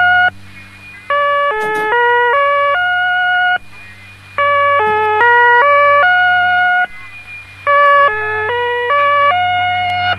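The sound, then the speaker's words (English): Czech number station on shortwave: a buzzy burst followed by a stepping melody of electronic tones, the pattern repeating three times over a constant low hum. “the old Czechs don't know how to do a number station, don't they?”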